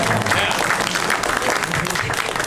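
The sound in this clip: Audience applause at a show, a dense, continuous wash of clapping from a crowd, with voices mixed in.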